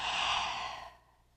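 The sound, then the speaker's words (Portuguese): A single long, deep exhale during a calming breathing exercise: a soft, breathy whoosh that tapers off within about a second, with no talk over it. “Então, ó, vou fazer com vocês. Então, você vai fazer a continha, puxa o ar, ó. Solta.”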